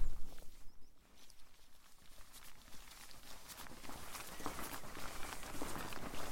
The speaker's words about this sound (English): while I walk along these farm tracks and farm lanes and footpaths and bridleways